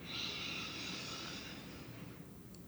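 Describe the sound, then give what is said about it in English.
A deep breath drawn in during a guided breathing exercise: a soft, steady airy hiss lasting about two seconds, then fading away. It is quiet and heard alone. “fill the lungs all the way up, pause at the top, and exhale everything out. Nice. Let's do that again. Deep breath in.”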